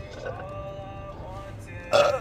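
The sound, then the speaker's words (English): Drunk burping: a drawn-out, low voiced burp that runs steadily, then ends in a brief, louder burst. “Damn, these are just drunk burps at this point.”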